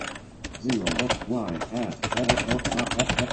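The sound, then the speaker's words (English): Keyboard typing while an Apple ID is entered on a computer: quick, irregular key clicks run throughout, partly masked by a voice talking over them. “So I'm going to type in my Apple ID.”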